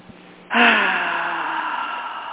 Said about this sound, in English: Let's all just take a big breath.